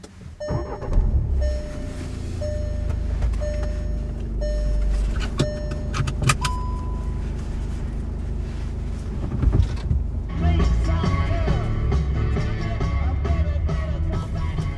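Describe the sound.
A car drives along a road on the way out of Ajax, Ontario, giving a steady, continuous rumble of engine and road noise with a few brief clicks and tones over it.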